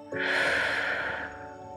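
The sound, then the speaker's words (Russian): A deep inhale through the nose and a soft, slow exhale through the mouth during breathwork practice: one long, airy rush of breath that swells quickly, holds, then eases away over soft sustained tones. “Сделай глубокий вдох через нос. Мягкий плавный выдох через рот.”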